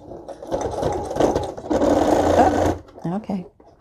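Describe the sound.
A sewing machine stitches fabric while the operator works it through rough spots, using the hand wheel to help. The motor runs in two steady whirring stretches, and a voice speaks briefly after the stitching stops.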